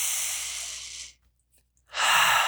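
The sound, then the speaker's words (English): Deep breaths during a calming exercise: one long, airy exhale that fades to a pause of silence, then another strong breath beginning, each loud and hissing. “Take 3 deep breaths. Right? 3 deep breaths. One more.”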